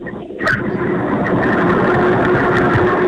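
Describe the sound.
Steady engine drone of a car being driven along a mountain road, a continuous low-mid hum that holds even throughout with no talk.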